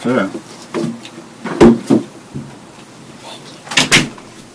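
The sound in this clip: A door being shut sounds as a few sharp knocks and thuds under a group of people talking.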